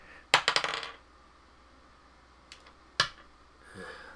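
Dice rolled on a table during a tabletop game and coming to rest against a wall: a quick rattling cluster of hard clicks and clacks, then a couple of isolated sharp taps a few seconds later.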